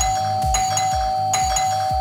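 A doorbell-style chime rings as the cue signal for a morning door-opening contest. A short ding-dong phrase of several notes plays twice over a steady sustained tone, with no voices.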